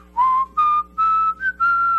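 Five clear whistled notes carry the melody of a rock song, steady and bright in pitch, each held briefly with short gaps between them and a faint low hum underneath.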